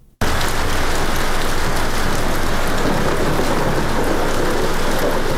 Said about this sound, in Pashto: د 5 میلیونو استوګنو په شار کې دا باران لا هم روان دی